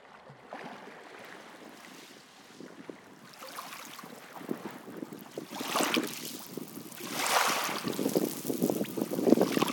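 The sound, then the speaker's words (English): Wind and small waves on Dalgety Bay beach in Fife, looking across the water to the Forth Rail Bridge: a continuous soft rushing wash that swells in irregular surges and grows louder toward the end, with no voices. “We're sitting on Dalgetty Bay Beach, looking out over the 4th Rail Bridge.”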